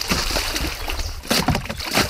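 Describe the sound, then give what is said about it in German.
A raft is pushed into the water with several irregular splashes and sloshes. Dull knocks and bursts of churning water come one after another at a moderate level. “Wir haben jetzt schon 2 Stunden dran gearbeitet und jetzt sind wir fertig und bringen es ins Wasser.”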